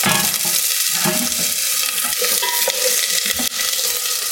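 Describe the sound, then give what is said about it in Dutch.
Onions sizzle in very hot oil, a dense, steady crackle and hiss that holds at a constant loudness throughout, with no voices. “En dan laat ik even de olie heet worden om er vervolgens, als het heet is, de uitjes bij te doen. Hoppakee. Heel heet. Uitjes gaan erbij.”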